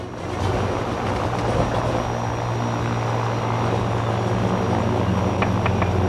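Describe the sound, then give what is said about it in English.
Steady drone of a propeller aircraft in flight, a low humming engine tone with a pulsing beat that holds at an even level throughout. “The aircraft continues to soar through the sky.”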